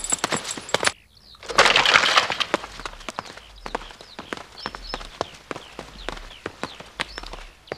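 Horse hooves clip-clopping as riders set off on horseback, with many sharp, irregular hoofbeats throughout and a loud rushing burst of noise early on.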